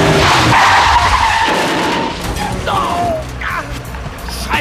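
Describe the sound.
A car skids with a loud, broad rush of tire-on-road noise that gradually eases, followed near the end by a brief, higher tire squeal.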